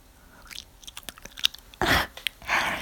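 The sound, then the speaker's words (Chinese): Chewing and biting into a large cream-filled sausage: a run of sharp, wet crunching bites and small clicks, followed by two longer, louder bursts of squelchy mastication. No voices are heard. “我是在吃香肠，爆浆大香肠，可好吃了呢。”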